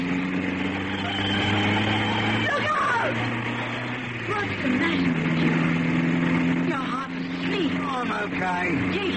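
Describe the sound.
Steady engine drone of a car being driven fast while fleeing London, with voices talking over it throughout and the engine note shifting slightly in pitch along the way.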